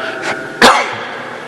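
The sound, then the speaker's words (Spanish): A priest coughs during a sermon: one softer short burst, then a single sharp, louder cough that fades quickly, with no talk around it. “Voy a toser, total no está el Padre Horacio para que me rete.”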